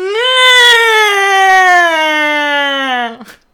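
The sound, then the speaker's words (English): A person's voice imitates a wail, holding one long, loud, steady tone for about three seconds. The pitch sags gradually before the tone breaks off abruptly. “Let's wail. Let's try it. Yeah, let's try it. Let's be really annoying on the count of three. One, two. No, you, well, first you wail, then I'll wail.”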